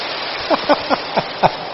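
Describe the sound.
Audience applause from lay Buddhists at a monk's dharma talk: a steady, dense hiss of many hands clapping, with a voice briefly speaking over it.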